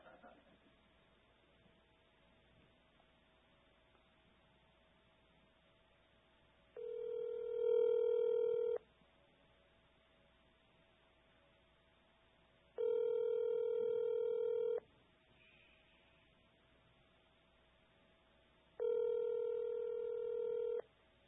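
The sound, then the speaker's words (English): A telephone ringback tone sounds while a call is placed. Three steady beeps of about two seconds each are spaced by long silent gaps over a faint hum. “Call Josh, Idaho. Calling Josh, Idaho.”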